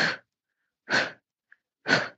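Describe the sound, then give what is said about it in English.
Forceful kung fu breathing out: three sharp, breathy exhalations in an even rhythm, each a short loud burst of air followed by silence. No talk is heard. “you hear three sounds, three times of the sound coming out. That is the breathing out. That is like the Kung Fu.”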